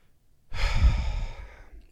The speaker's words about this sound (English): Let's exhale